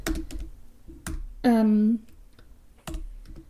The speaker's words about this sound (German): Warte mal, das schreibe ich mir direkt mal auf. Trailer.